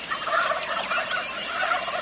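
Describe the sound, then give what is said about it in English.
Wild turkey gobblers gobble in a dense, overlapping chorus of rapid, rattling calls that runs continuously at a moderate level, with no voices. “This mic picks everything up. Listen to those gobblers.”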